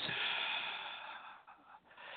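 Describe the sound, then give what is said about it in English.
A long, breathy exhale is released after a deep breath held during a meditation exercise, a soft, steady rush of air that fades slightly and wavers near the end. “So deep breath in, squeeze, and feel the energy moving to the top of your head. Now hold it a few seconds. Hold it, hold it, hold it. Now release.”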